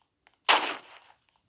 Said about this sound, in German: Aber man kann ja trotzdem mal auf die Fenster schießen.